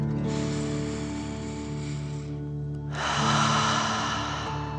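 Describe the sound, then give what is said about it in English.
A deep breath in, then a longer, louder breath out, as in a guided children's breathing exercise of drawing air in through the nose and blowing it out through the mouth like a fire-breathing dragon, over soft sustained music. “let's take another 3 deep dragon breaths. Deep breath filling up your chest and belly, in and out.”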